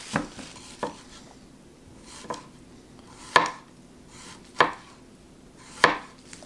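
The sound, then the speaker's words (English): A cleaver knife chops through a tough sweet potato and strikes the board in six sharp, loud thuds at irregular intervals, with quiet pauses between the cuts. “a sweet potato usually, you know, it's going to be a little bit tougher to slice through, but the knife has no problem doing that, the cleaver knife.”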